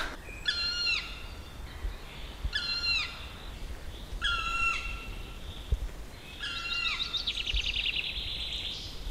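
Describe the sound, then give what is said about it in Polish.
Large black bird calling from the top of a dead spruce: four loud, harsh, descending calls spaced a couple of seconds apart, the last running into a rapid rattling series, over faint background hiss. “A jak siedzi na pniu, to właśnie się tak drze jak teraz. Czyli chodź, podejdziemy bliżej. Może go zobaczymy. Czarne, wielkie ptaszysko, którego głowa wygląda, jakby była wypchana.”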